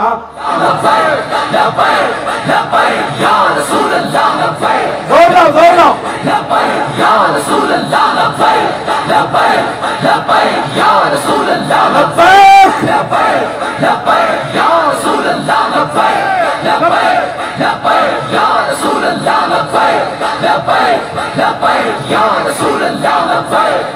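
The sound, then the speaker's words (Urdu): A large crowd chants religious slogans at full force at a rally, a loud, roaring mass of voices shouting in unison. The chanting is sustained and swells in repeated waves throughout. “ایسے کر کے نعرہ لگانا ہے، بالکل پورا زور لگانا ہے۔”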